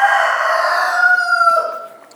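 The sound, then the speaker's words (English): A bantam rooster gives one long, loud crow among bantam chickens and rescue hens in the morning. The harmonic call holds steady, then drops and fades at the end. “Another little bantams here.”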